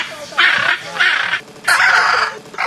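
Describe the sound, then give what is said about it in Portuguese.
Harsh, raspy squawks come from a blue macaw, a bird native to Brazil's Caatinga. Three loud calls ring out in a steady rhythm with brief gaps between them, and a fourth begins just as the sound cuts off. “Este é o canto da arara azul, uma espécie de ave natural da Caatinga do Brasil”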